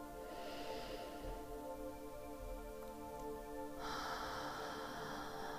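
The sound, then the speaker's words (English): Slow, deep breaths drawn in during a guided meditation, soft and airy, heard faintly over a sustained tonal music bed. “We'll do three breaths together. Inhale.”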